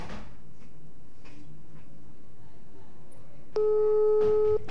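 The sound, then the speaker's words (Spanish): A telephone is dialed again: a few soft clicks and taps, then a steady buzzing line tone that holds for about a second near the end. “Le voy a intentar otra vez, a marcar otra vez.”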